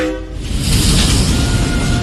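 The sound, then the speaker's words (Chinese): A train rumbling: a broad, loud roar swells in after a brief quieter moment and holds steady to the end. “伴随着火车的轰鸣声，一批又一批的游客踏上了新鲜有趣的旅途。”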